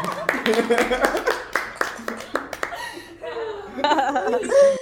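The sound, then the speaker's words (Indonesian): Sharp hand claps come in a quick, uneven run from a small group of guests, mixed with laughter and chuckling, and then talking voices take over. “Applause dulu dong Pak.”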